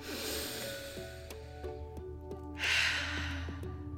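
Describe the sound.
A deep breath drawn in as a single airy rush of breath partway through, clearly audible over steady background music.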